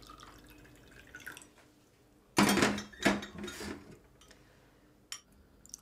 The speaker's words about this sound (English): And I'm going to fill the glasses up now. So, some tap water,